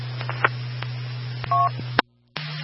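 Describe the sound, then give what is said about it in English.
Telephone dialing tones as a phone call is placed: faint clicks and a short dual-tone beep over a steady low hum, then a sharp cutoff into silence before the hum returns. “stand by for a phone call.”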